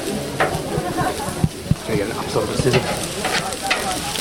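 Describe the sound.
Democracy sausages sizzling as election volunteers in Australia cook them: a steady, dense crackling hiss throughout, dotted with occasional sharp pops, with voices faintly underneath.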